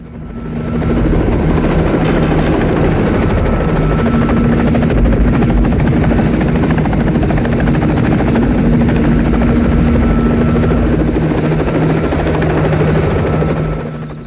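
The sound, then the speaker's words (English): A helicopter circles over a house and sets down on a dusty clearing, its rotor drone loud and steady with constant humming tones. The sound fades in at the start and eases slightly toward the end. “The helicopter banks over the house. The chopper turns in the sky, circles the house, then lands on a dusty clearing nearby.”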